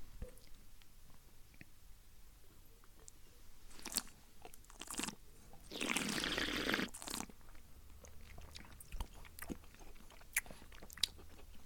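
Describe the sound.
Chewing on a liquorice-coated sweet: faint, quiet mouth sounds with a couple of short crunches, then a longer, louder burst of crunching, followed by scattered small clicks.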